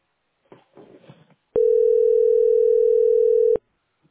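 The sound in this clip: A telephone ringing tone plays while a caller waits to book a doctor's appointment: a single steady, loud, pure tone lasting about two seconds, preceded by a brief stretch of faint, muffled noise.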